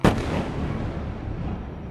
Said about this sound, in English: Fighter planes flying low over your city, for example, or explosions in the far and not so far distance.